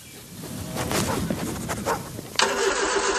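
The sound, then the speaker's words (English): A ute's engine cranks with a rough, rhythmic churning, then catches and settles into a loud, steady droning run. “Mate, your ute's been making that noise since Easter.”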